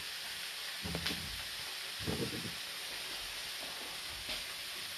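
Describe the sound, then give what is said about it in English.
Onions sizzling in a frying pan give a faint, steady hiss, broken by a few brief louder bursts of clattering and scraping as they are stirred. “So now the onions are sizzling away,”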